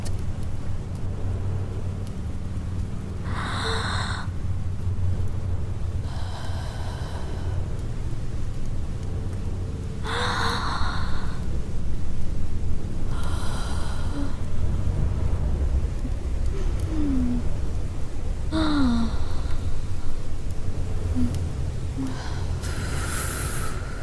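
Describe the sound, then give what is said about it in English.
Slow breathing in and out, heard as several drawn-out, breathy rushes spaced a few seconds apart over a constant low rumbling noise. “breathe in and glide slowly back down. as I breathe out.”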